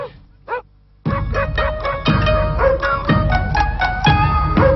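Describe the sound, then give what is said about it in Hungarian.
Dog barking: two short yips, then an abrupt, loud, dense stretch of repeated barks over a continuous rumbling background with a rough rhythmic pulse. “Aztán ott az elégedetlenség, ha a kutya sokat ugat.”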